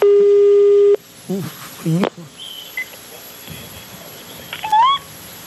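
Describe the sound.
A telephone ringing tone on a call: one steady, buzzing tone lasts about a second and then stops, followed by brief voices talking.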